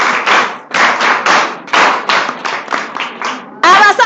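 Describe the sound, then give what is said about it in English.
Children clapping for their teachers: many sharp, rhythmic claps in quick groups. A voice briefly comes through at the very end. “Clap for your teachers.”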